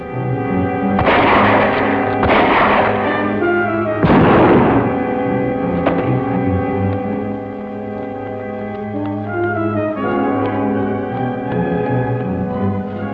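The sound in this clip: Shotgun blasts firing buckshot: three broad, booming bursts in the first half, each decaying quickly over a sustained tonal, music-like background that continues steadily to the end.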